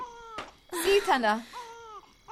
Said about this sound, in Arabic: يا عزيزي لا تبكي، رجاء لا تبكي حبيبي.